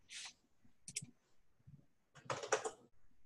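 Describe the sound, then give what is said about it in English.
Faint computer mouse clicks: a few short, crisp clicks come in small clusters, with quiet gaps between them and a slightly longer flurry of tapping near the end. “If I click there, it doesn't do anything.”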